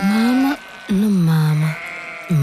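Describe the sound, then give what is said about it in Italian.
Goats bleat as they are driven to pasture: two long, wavering bleats and the start of a third, each a clear, nasal, mid-pitched cry separated by short pauses. “Passa con le sue caprette dirette al pascolo”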